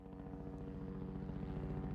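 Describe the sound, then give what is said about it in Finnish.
Low-flying helicopter used for aerial tree trimming along power lines, its steady droning engine and rotor hum running continuously at moderate loudness with a dense low rumble and no voices. “Helikopteri lentää matalalla ja aiheuttaa jonkin verran melua.”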